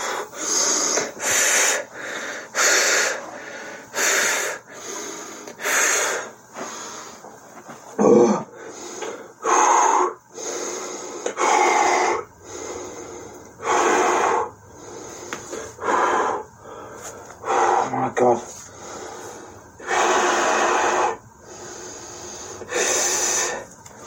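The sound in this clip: A man's heavy, controlled breathing exercise to calm a panic attack: many loud, airy, hissing breaths, some with a wheezy rasp, repeating roughly every second or two in an uneven rhythm.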